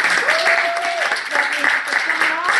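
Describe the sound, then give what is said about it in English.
Audience applause and hand clapping at a women's empowerment summer gathering: dense, steady clapping throughout, with a voice rising above it. “ladies, let's give a big hand clap for everybody in the room for that.”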